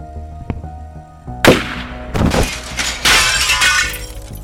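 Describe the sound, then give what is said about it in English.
Mirror shattering into shards: a sharp crash, then a few more loud bursts of breaking glass with bright tinkling fragments, over a faint low hum. “Shards of a mirror.”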